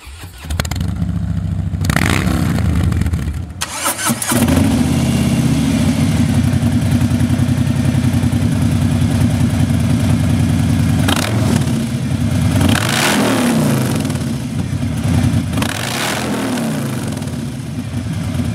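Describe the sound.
Engine revving from a 2018 Softail motorcycle fitted with a Two Brothers 2-in-1 stainless exhaust: a loud, deep, rumbling idle punctuated by several sharp throttle blips, sustained throughout without talk.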